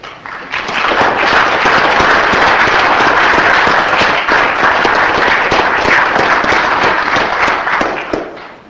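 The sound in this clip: Dense applause fills a Senate chamber as the Burns High School FFA group stands in the balcony to be welcomed, a steady, loud wash of many hands clapping that holds throughout and tapers off at the end.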